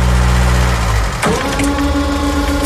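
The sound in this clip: A forklift engine is started and then idles. A loud, steady mechanical rumble has a sharp jolt partway through, then settles into an even, droning hum.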